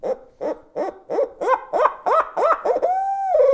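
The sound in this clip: A turkey call, as used for calling Osceola turkeys, plays a laugh sequence of many quick, rising-and-falling yelping notes in a steady run, then ends with a single long, held locator note.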